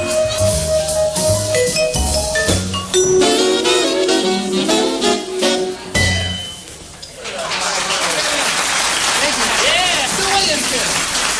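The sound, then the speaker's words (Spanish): Applause for a show's resident orchestra, led by a vibraphonist, follows several seconds of loud band music. Dense, steady clapping then rises and carries on to the end. “Aplausos a la orquesta estable del programa”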